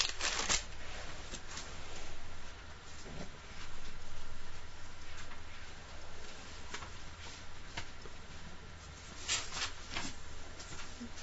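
Bible pages being turned to Psalm 90: soft, papery rustles and flicks repeating many times at a low, steady level with no speech over them.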